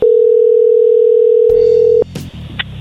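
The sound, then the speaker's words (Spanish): A telephone dial tone hums while a call is being redialed: a loud, steady, unbroken tone for about two seconds, then it cuts off and a few faint clicks and light handling noises follow. “Ya colgó. Márcale de nuevo.”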